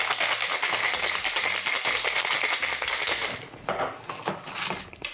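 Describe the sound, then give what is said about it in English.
Cocktail shaker shaken gently with an egg cocktail destined for a coupe: a dense, steady rattling churn that runs without pause and eases slightly toward the end, with no talking. “Now, with this one, we're just going to shake a little bit because we don't want to break down that egg.”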